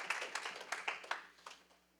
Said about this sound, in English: If you believe that says something good, clap your hands and sit down.